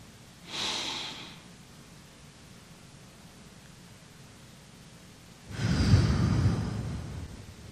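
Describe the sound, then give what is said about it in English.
Deep breaths during a guided relaxation: a short soft breath, a long quiet pause, then a longer, louder breath, airy and unvoiced, with no talking. “Take a deep breath.”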